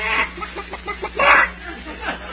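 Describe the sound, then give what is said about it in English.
A chicken clucking, with a string of short throaty clucks and a louder, longer squawk in the middle, all sounding thin and band-limited. “They didn't steal our chicken after all.”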